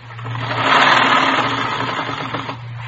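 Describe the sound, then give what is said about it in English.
Sewing machine stitching rows of ruffles: a steady mechanical whirring with a low droning hum. It swells slightly and runs continuously for about three seconds, with no talk. “Well, I've got this sewing to do. You can see that, can't you? 3 more rows of ruffles go on. Right here.”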